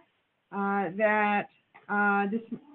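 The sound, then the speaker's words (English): A pet cat meows in a few long, drawn-out, tonal cries separated by a short pause, each a little wavering in pitch, loud against an otherwise quiet background. “sorry, it's our cat.”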